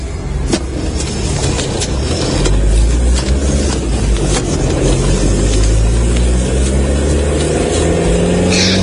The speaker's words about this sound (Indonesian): Aku mengumpulkan segala keberanianku untuk kembali masuk ke mobil dan menyalakan mesin lalu melaju lagi.